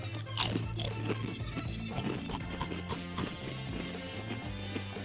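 A lime-flavoured crunchy snack bitten and chewed, with one sharp crunch early, then many smaller crackling chews in an uneven rhythm over a faint low hum.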